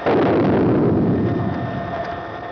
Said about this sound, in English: Here is another earthquake, 20 miles from the recorder, but only one on the Richter scale, which was not felt.